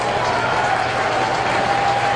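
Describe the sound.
Baseball crowd cheering at Citizens Bank Park during a Phillies game at a full count. A dense, steady roar of many voices holds evenly throughout without a break.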